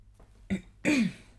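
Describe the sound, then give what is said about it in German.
A single short cough is followed by a longer, gruff throat clearing that drops in pitch. Both are fairly quiet and heard alone. “Diese Husterei, das nervt mich auch ein bisschen.”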